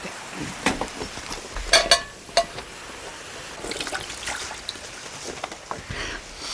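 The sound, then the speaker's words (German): Water is poured to make tea on a camping stove, heard as running, splashing liquid with a couple of bright metallic clinks early on, then quieter trickling. “zündete den Campingkocher an und setzte Teewasser auf.”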